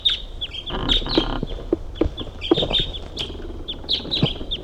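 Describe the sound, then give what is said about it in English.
Bird calls ring out as many short, sharp chirps and clucking notes, scattered irregularly and fairly faint, with no voices. “Another bird's flying.”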